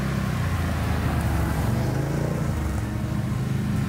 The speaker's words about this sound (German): Was will man nachts mit einem Quad im Wald?